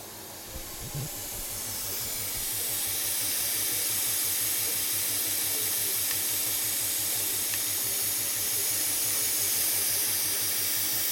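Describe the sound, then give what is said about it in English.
Compressed air hisses steadily from a monotype printing machine casting border patterns, a loud, bright, continuous hiss over a fast, regular low mechanical pulsing from the machine. “So that noise you can hear there is a hiss of the air. This runs off compressed air, this machine”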